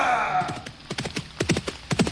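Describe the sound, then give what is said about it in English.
Horse hooves clip-clop as a rider sets off, with many sharp, irregular strikes coming in small clusters that grow steadier toward the end. “hoisting himself back on his horse.”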